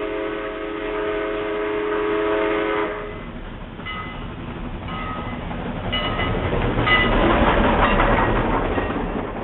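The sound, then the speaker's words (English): A train rumbles along with steady rolling clatter, and a few short horn blasts ring out over the noise partway through. “A train.”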